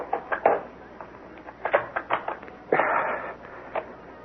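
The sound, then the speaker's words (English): A tape recorder is handled and started in a radio mystery drama, with a run of sharp mechanical clicks and clatters, a brief rushing burst midway, then a few more clicks. “One of these. Tapes. Maybe it's on tape.”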